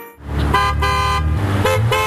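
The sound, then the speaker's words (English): Car horns honk at a roadside protest outside a shopping mall. Several blaring horn tones overlap in a loud, continuous burst over low traffic rumble. “That's the sound of Honk for Democracy outside West Town Mall from Saturday, December 6th.”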